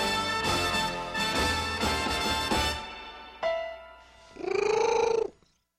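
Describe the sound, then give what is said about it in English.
A domestic cat purrs loudly in strong, rhythmic pulses. After a short pause comes a brief, higher, wavering vocal sound. “no domestic cat had ever purred more powerfully than Smokey, who probably responded to the news by making, quote, a sound akin to the cooing of an angry dove”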